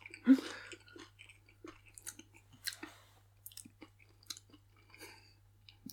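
Someone chews spicy crisps, producing faint, irregular crunches and smacking bites, with one louder crunch at the start followed by scattered softer ones.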